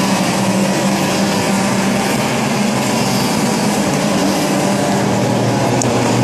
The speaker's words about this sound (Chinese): 内线的红色的赛车是韩雨辰61号，好，这是60号，这是何俊宏